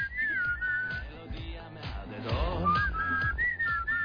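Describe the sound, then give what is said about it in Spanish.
A person whistles a wavering, bright melody, loud and clear throughout, over a busy low background. “Eso es lo que iba silbando el cura párroco de Iquique en Chile.”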